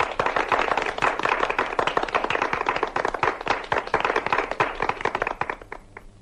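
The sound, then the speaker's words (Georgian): Applause from a gathered crowd at a memorial farewell ceremony: many dense, fast claps blend into a steady roar that continues throughout and thins slightly at the very end. “ტაში ბატონებო ტაში.”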